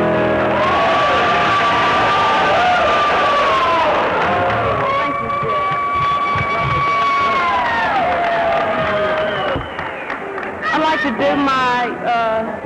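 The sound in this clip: A country music crowd at a tenth-anniversary homecoming show cheers and applauds to welcome a singer, with loud, continuous noise, whoops and shouts, and voices ringing out over the applause throughout.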